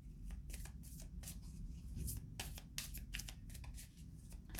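Tarot cards being handled and drawn from a deck make crisp papery riffles and snaps, a steady run of quick rustling bursts alone with no talk.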